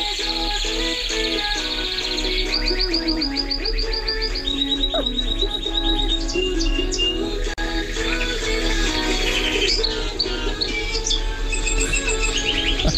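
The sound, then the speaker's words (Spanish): A pet bird chirps and trills along to steady music, its high, rapid repeated notes rising above the melody in several bursts, with no talking. “Y tengo un pájaro nuevo. Se llama Plumita. A ver si... Y canta con vuestra música.”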